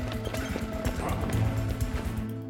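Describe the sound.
A person runs down a long corridor, and the hard footfalls make a quick, steady patter over sustained tonal music.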